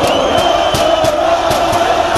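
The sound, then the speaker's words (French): Paris Saint-Germain supporters chant outside the Parc des Princes stadium, a loud, dense mass of voices. Regular rhythmic beats pulse underneath throughout. “À peine sortis du Parc des Princes, les supporters du Paris Saint-Germain donnent de la voix.”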